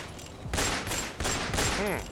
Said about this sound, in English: Oh God, they're shooting me. My God, they're pumping me full of lead.